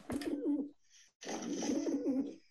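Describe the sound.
Pigeon cooing played as a sound effect from a phone soundboard: two bursts of low, throaty, rolling coos separated by a brief silent gap.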